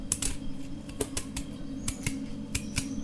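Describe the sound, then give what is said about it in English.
A sweet potato peeled with a knife rather than a peeler: a run of short, crisp scraping clicks at an irregular pace, fairly soft, over a low steady hum. “She's peeling a potato. I'm peeling a sweet potato. With a knife, not with a peeler.”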